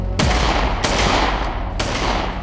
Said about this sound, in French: Jérôme Thonon, l'ex de Nathalie, dégaine et il tire sur le motard. L'homme s'en sort, ça n'était que des balles en caoutchouc.